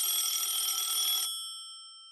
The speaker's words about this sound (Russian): Но тут, к счастью, позвонил телефон.